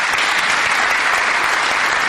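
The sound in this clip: Applause welcomes a speaker as he comes up to address a morning gathering: loud, dense, continuous clapping with an even texture and no pauses throughout.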